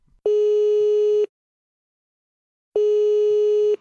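Ringing tone of an outgoing online call: two steady, mid-pitched tones of about a second each, separated by a long silent gap, with no voices.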